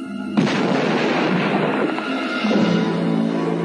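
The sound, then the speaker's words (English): A space battle station fires its guns and a planet explodes: a loud, sustained roaring blast of dense noise that begins abruptly and surges again partway through. “Aim the guns at Alderaan.”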